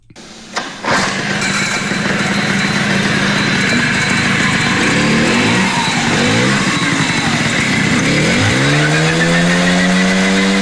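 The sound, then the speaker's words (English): A 1979 Jialing CJ50 motorcycle engine catches with a sharp start and settles into a steady, buzzing run. Near the end the revs climb and the pitch rises. “what does the 1979 version of the Jialing CJ50 sound like? And this is it.”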